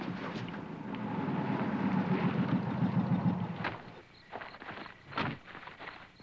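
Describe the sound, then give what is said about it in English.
A car drives in and pulls up, its low engine rumble building and holding steady for a few seconds before cutting off, followed by a few faint, scattered knocks. “Hey, we're in luck. Klink just drove in.”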